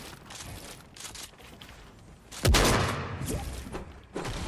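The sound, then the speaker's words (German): Gunfire in the video game Fortnite: a sudden loud shot bursts out midway and rings down, a few fainter cracks come before it, and another sharp shot lands near the end. “jetzt schieß nochmal.”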